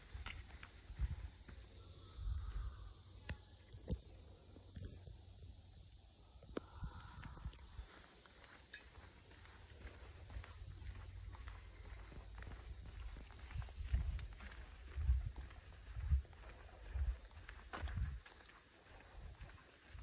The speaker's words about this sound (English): And we're moving along the dirt footpath now, through the trees, back into the shade. It's a beautiful day for a walk.